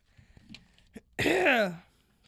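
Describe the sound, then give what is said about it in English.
Heavy throat clearing right at the microphone: one loud, raspy burst of about half a second with a voiced edge that drops in pitch, preceded by faint small noises and followed by quiet. “That was a heavy throat clear. Before that, that was a moment right before. Right to the mic, too.”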